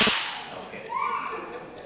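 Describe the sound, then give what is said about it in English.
A crowd giving one single clap together for a district attorney, a sharp, loud burst right at the start that quickly decays into quieter noise instead of a round of applause. “So we give the DA one clap, not a round of applause.”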